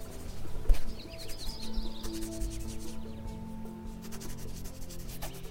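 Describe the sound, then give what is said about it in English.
Pen or pencil scratching on paper while someone writes a poem: a soft, steady rubbing that carries on throughout, with brief bird chirps near the start and a faint tonal hum underneath. “What are you writing? A poem.”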